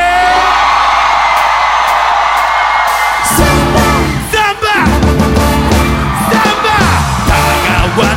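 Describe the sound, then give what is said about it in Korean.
Crowd cheering and yelling fills the first three seconds of a Korean pop song, a loud, dense roar of many voices that then gives way to music with vocals. “함성 소리!”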